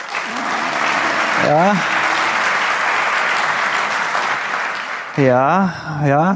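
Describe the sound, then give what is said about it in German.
Audience applause during a talk on targeted advertising: broad, even clapping from many people holds steady for about five seconds. A voice briefly cuts in partway through, then speech resumes over the fading claps at the end. “an der Stelle hatte ich keinen Applaus erwartet”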